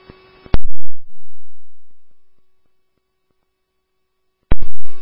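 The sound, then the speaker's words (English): Fire rescue dispatch alert tones for a rescue unit: a steady electronic tone held for a few seconds, framed by sharp radio bursts at the start and end, with no talking. “Stillwater Station 1 Rescue, these are your tones for 313 Greeley Street South, Unit 345 for level 86 person”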